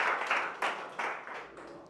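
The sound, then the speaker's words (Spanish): Brief group applause after a counting exercise in a singing-and-movement session, coming as a few short bursts of clapping that fade toward the end. “¡Un aplauso! ¡Sí, señor!”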